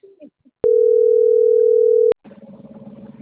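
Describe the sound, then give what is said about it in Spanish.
A phone line tone sounds after a dropped call: one steady, pure tone lasting about a second and a half, starting and stopping abruptly. Faint, brief sounds come just before it and a murmur follows it. “Se nos cortó la llamada, compañero.”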